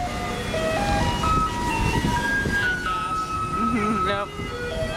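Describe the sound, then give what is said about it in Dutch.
Electronic musical tones from a garbage truck playing a classical tune on its collection rounds: a simple melody of stepped, sustained notes, moderately loud over a busy low rumble. “En dat is veranderd dankzij vuilniswagens waar muziek in zit. Tijdens de ophaalrondjes draaien ze klassieke deuntjes, horen we in een filmpje op de website van The Guardian”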